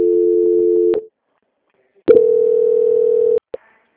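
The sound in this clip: Telephone line tones during a call transfer: a steady mid-pitched tone, about a second of silence, then a second steady tone, ending with a short click.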